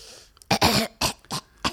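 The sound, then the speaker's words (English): A person clears their throat of phlegm in a few harsh, rasping bursts. The first burst is the longest and the later ones are short. No one speaks. “when the other person in the room stops clearing their throat, we'll begin the episode. I'm sorry. I had some phlegm.”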